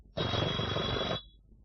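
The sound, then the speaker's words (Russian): A telephone bell rings once, a bright, buzzing ring lasting about a second that cuts off cleanly and stands alone without any talk. “Скорее к телефону. Город? Пана Шпелика, пожалуйста.”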